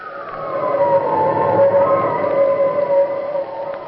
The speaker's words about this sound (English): Listen to that wind